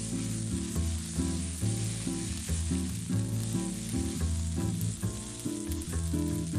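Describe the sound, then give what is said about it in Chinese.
Marinated beef sizzles on a hot grill grate, a loud, steady crackling hiss with dense popping and spitting throughout and no voices. “先用秘制料汁腌制，让牛肉的每一丝纹理都浸满香甜，汁水也会更加充盈。先等网热再上肉。”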